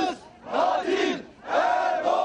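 An angry crowd shouts and roars in two loud, surging bursts as protesters scuffle with police who keep them away from a bombing site in Turkey.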